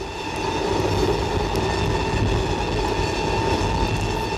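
An express train bound for Rome runs on the rails with a steady, loud rumble and a continuous humming drone that holds constant throughout, with no voices.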